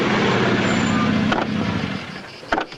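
A car slows and pulls over to the roadside with trouble at the front right wheel. Steady engine and road rumble fades after about two seconds, followed by a few soft thumps near the end.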